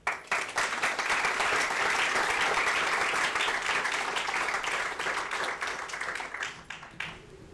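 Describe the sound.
An audience applauds to welcome a speaker, a dense, loud wash of many hands clapping that starts abruptly, holds steady and then thins out near the end.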